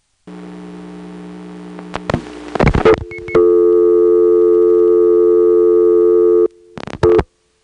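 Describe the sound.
Telephone call-progress tones after dialing a 233 number routed to a bordering central office switch: a low steady tone, then clicks and noisy bursts, a loud steady higher tone lasting about three seconds, and brief choppy tone bursts at the end.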